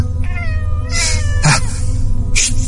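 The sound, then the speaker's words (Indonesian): An angry cat meows after being kicked, letting out a few strained, drawn-out yowls broken by harsh, noisy bursts. No other sound is heard. “Karena aku kurang suka kucing, aku mengusirnya dan menendangnya hingga kucing itu melotot ke arahku dengan muka yang marah.”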